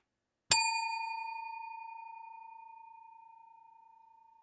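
A single bell strike rings out: a clear, mid-pitched tone with bright metallic overtones that decays slowly and smoothly over about four seconds, alone against silence.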